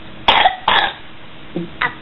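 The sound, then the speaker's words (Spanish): A person coughs four times: two harsh, loud coughs close together, then a pause and two softer, lower coughs. No talking. “qué tos que tenés”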